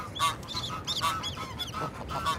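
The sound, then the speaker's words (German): A restless gander (male goose) guarding goslings at a nest high on a building honks many times, with loud, harsh nasal calls in quick, irregular succession, some coming close together in pairs. “Der Ganter wird unruhig.”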